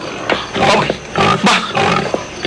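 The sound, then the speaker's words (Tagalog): A pig grunts and squeals in several harsh, loud bursts separated by brief gaps, each a raspy roar-like blast. “Baboy kag nagasugata siya sa akon. Baboy nga nagabakya.”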